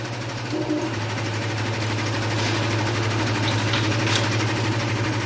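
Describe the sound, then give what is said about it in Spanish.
A vehicle engine runs steadily while being repaired: a continuous low mechanical drone with a buzzing, vibrating texture and no pauses. “manipula el motor de un vehículo.”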